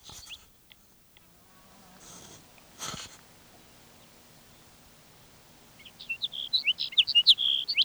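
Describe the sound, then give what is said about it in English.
Sage sparrow song: a rapid run of high, thin chirping notes in a slightly irregular rhythm that enters late over quiet background hiss, after a few faint rustles. “Sage Sparrow number one.”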